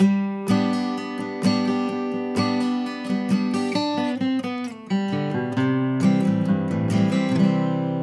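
Guitar playing a two-measure lick that moves from a G major chord with a backward slide to a C chord: a few ringing chord hits, then a run of quick single notes and a final ringing chord, with no talk.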